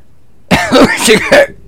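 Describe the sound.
Coughing and throat clearing from someone with something stuck in the throat, a few harsh, rasping bursts in quick succession, heard alone with no talk.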